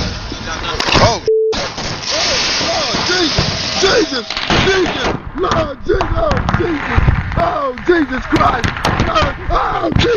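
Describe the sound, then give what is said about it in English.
Fireworks set off in an inner city around the 4th of July, during a display in which a tree catches fire: many whistling rockets and crackling pops in quick succession, with people shouting over them. “Gentlemen had some great fireworks in the inner city, and everything was going well until one of the trees caught on fire. And you'll know that moment when it happens.”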